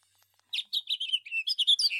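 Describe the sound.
A house finch call plays from a bird identification app: after a brief silence, a rapid, lively run of many high, bright chirps and warbled notes follows without a break.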